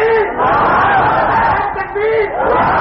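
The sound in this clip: Crowd at a religious gathering chanting in unison in response to the Naara-e-Takbir slogan, a loud wall of massed voices that swells and dips in repeated waves.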